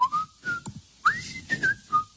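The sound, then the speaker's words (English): A person whistles a tune from memory while drinking coffee: several short, fairly faint notes in an uneven rhythm, some sliding upward, separated by brief pauses. “not to annoy people with my whistling here, but let me see if I remember.”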